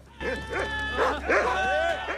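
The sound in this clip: Dogs bark and yelp as they chase after tigers alongside men. Their high, sliding yips and whimpering barks come in quick overlapping bursts over a steady low background hum.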